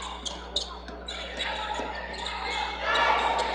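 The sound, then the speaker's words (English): A basketball dribbled on a court during a women's basketball game, with a few quick, sharp bounces near the start and a steady crowd murmur that grows slightly louder toward the end. “Four quick dribbles, a spin of the basketball.”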